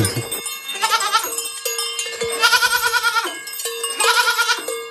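Goats bleat at a small farm at feeding time as they jostle to eat cereals. A few loud, strained, harmonic bleats come in bursts that overlap one another, with no talk.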